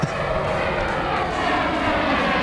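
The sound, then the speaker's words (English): An airplane passes overhead with a steady, loud engine roar that holds evenly for the whole clip, with no voices heard. “There goes my plane.”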